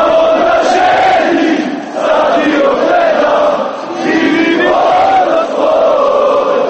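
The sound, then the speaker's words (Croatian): Željezničar football fans and players loudly chant their championship song through the Grbavica neighbourhood of Sarajevo after a title win. Massed voices sing in long phrases, with brief dips between them. “Šampionska pjesma navijača i fudbalera ovog tima orila se sinoć sarajevskim naseljem Grbavica.”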